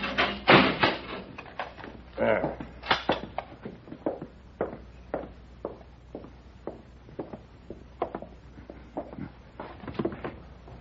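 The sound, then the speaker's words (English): A cell door is shut and locked in an old 1940s radio drama: a run of many sharp clunks, rattles and latch clicks at an irregular rhythm, fairly quiet against a low hum. “All right, Paladin, but I'll have to lock you in.”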